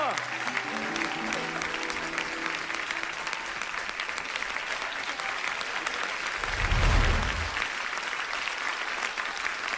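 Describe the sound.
Audience applause after a song, dense and steady clapping that continues throughout and swells louder for a moment midway, with the last notes of music fading at the start.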